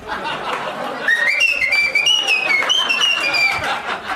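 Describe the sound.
A person whistles a lively tune of high, shifting notes that slide up and down, clear and fairly loud over a noisy background with faint voices.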